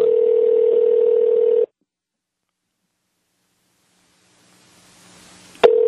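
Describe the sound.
A phone call in progress: a steady telephone tone sounds, cuts off into a few seconds of silence, then faint hiss builds before a sharp click and the tone returns.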